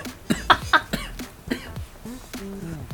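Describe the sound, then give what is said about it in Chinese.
Someone coughs after choking on a piece of orange: a few short, harsh coughs, then softer voiced throat noises. “不好意思，我被橘子呛到。”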